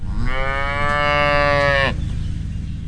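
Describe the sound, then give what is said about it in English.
A long, loud moo from a dairy cow in a herd of about 200 on a family farm on the outskirts of Luray. The harmonic call lasts nearly two seconds, then cuts off, leaving a low steady background rumble. “300 acres of corn feed their herd of about 200 cows, whose milk ends up in stores in Maryland and Virginia under the Mayola brand.”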